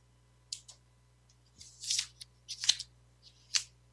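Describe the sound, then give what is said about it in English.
Tarot cards are shuffled in a few short, crisp, papery flicks and riffles separated by pauses, faint over a low steady hum. “Let's go to the cards and see what comes out for just a little bit of messages coming through about this week.”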